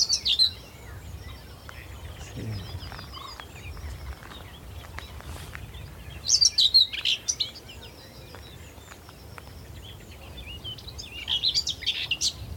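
A common whitethroat sings from a bush in marshland, giving short, scratchy, high chattering phrases in three bursts separated by quiet stretches. The song is fairly faint over a soft background.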